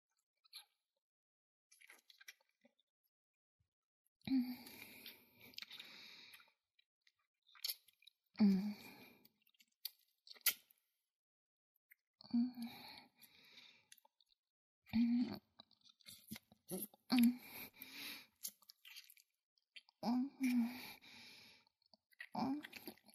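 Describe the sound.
Many soft, wet kissing and lip-smacking sounds come in irregular clusters, with quiet breaths between them and no talking.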